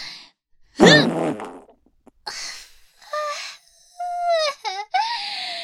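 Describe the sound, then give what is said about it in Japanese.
Squeaky, buzzy fart noises from a person with an upset stomach passing gas while working in an office, a series of several bursts with wavering, bending pitch, some short and some drawn out, separated by brief silences. “だからブーブーへこきながら仕事できて超快適。あ、また出る。”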